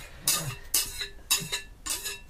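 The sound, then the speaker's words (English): A mashed banana mixture is tipped and scraped into a bowl of butter and sugar. Four broad, soft scraping bursts come at fairly even intervals, with no talk. “could you please tip that mixture into the bowl of butter and sugar mixture?”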